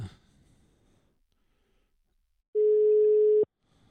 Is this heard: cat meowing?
no

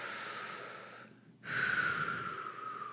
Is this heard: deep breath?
yes

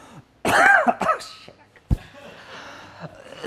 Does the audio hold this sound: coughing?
yes

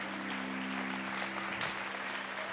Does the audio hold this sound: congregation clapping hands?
yes

